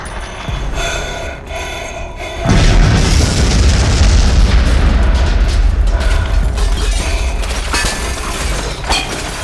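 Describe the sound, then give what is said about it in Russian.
A thrown explosive charge blows up in swirling fog over rubble: a low mechanical hum, then a sudden loud boom about two and a half seconds in, followed by a sustained roaring rumble that fades only slowly. “Поэтому Йорген вновь полез в сумку и бросил новую порцию взрывчатки прямо в клубящийся туман.”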